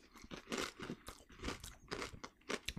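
Crunching on a big chip, with many sharp, crisp bursts of breaking and chewing repeating steadily throughout, fairly loud and with no talk over it.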